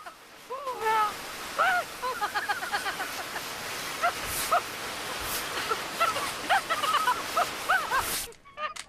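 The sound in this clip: A powerful jet of water from a garden hose hisses continuously as a man is hosed down, with high yelping cries breaking over the spray before it cuts off abruptly near the end.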